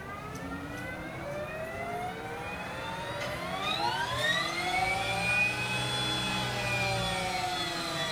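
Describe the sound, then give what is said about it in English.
Electric whine of a Harley-Davidson LiveWire electric motorcycle riding by, a smooth tonal hum that swells and sweeps upward in pitch midway, then holds high and steady, with no voices. “No. No, that's the motorcycle. That's the sound. That's cool.”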